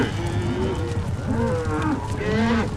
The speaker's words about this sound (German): Die Rinder wirbeln so viel Staub auf